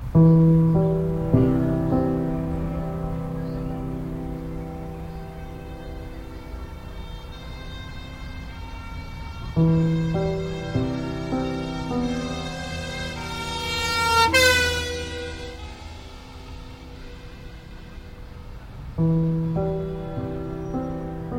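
Loud wailing emergency vehicle sirens, steady harmonic tones sliding slowly up and down in long repeating cycles that restart abruptly, with the pitch climbing to a sharp peak midway through.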